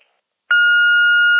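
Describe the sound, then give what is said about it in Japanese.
An answering machine beep sounds as a single steady, sustained electronic tone that starts abruptly after a brief silence and holds at a constant pitch until the end. “ただいま、ポッドキャストトーク中で電話に出ることができません。ご用のある方は、ピーッとなりましたら、お名前とご用件を勝手にどうぞ。”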